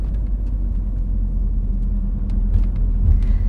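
A car drives through a city centre in rush-hour traffic, heard as a steady, loud low rumble of engine and road noise that holds constant throughout, with no voices.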